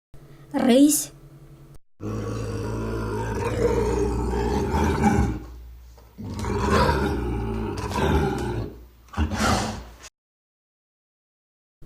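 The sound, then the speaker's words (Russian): An Amur tiger roars a few times: deep, rumbling, drawn-out roars, the longest lasting several seconds, each separated by brief pauses. “Амурский тигр.”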